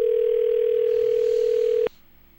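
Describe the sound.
Telephone ringing tone on an outgoing call before it goes to voicemail: a single steady, pitched tone holds, then cuts off abruptly, leaving a quieter faint hum.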